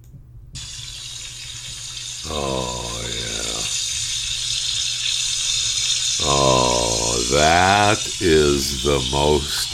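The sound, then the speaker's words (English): Bacon sizzles in a frying pan with a continuous crackling hiss throughout, while a voice talks over it at intervals. “That's the sound of the best bacon ever cooking in a frying pan.”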